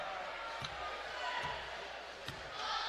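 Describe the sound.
A basketball is dribbled on a court during a tied game late in play: three dull, evenly spaced bounces under steady crowd noise and a commentator's voice.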